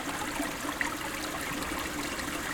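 Clear water flows in a steady, gentle rush, an even wash of sound that holds constant with no other noises.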